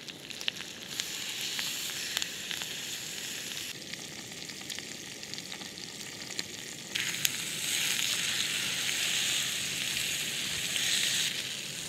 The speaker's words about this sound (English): got some garlic butter covered prawns, tomatoes on the vine, and a little sprig of some thyme and some rosemary, all that jazz, you know? Let's start cooking.